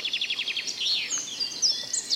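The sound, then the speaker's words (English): Birds twitter and tweet outdoors on a Saturday afternoon, a quick run of high, repeated chirps giving way to a few brighter sweeping whistled notes. “Just the birds twittering and tweeting all around you.”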